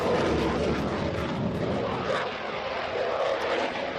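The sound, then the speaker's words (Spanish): A Eurofighter fighter jet of the Spanish Air Force at Morón de la Frontera air base gives a steady, dense engine roar that stays loud and broad throughout, with only slight swells in intensity. “Así suena esta máquina de volar, el caza Eurofighter, el avión de combate más moderno del Ejército del Aire”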